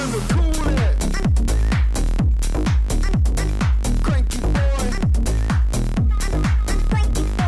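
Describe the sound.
A dance-floor electronic single plays loudly with a pounding, steady kick beat and dense synth layers, the rhythm driving and unbroken from start to finish.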